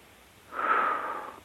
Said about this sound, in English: All right, take a nice deep breath.